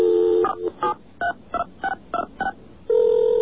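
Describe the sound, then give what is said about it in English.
Touch-tone telephone dialing into a voicemail system: a steady tone, then a quick run of short beeping digit tones, then another sustained steady tone. “Now, the next thing we did, we called the 2600 voicemail system.”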